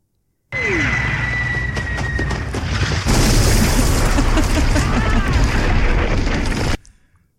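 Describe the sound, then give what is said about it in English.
A missile explosion from a film, a sustained roaring blast of about six seconds that starts abruptly with a brief falling whine, grows louder midway, then cuts off sharply. “That's the missile that took out Hulk.”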